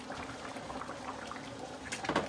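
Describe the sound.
Orzo pasta boils in a pot while being stirred, giving a faint, steady bubbling with soft stirring noises that grow slightly louder near the end.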